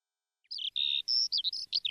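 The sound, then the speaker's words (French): A canary chirping in a string of short, high, whistled tweets and trills, bright and clear with nothing else behind them. “Il prit aussi avec lui, dans sa grande poche de manteau, son petit canari. « Petit oiseau, tu me tiendras compagnie. »”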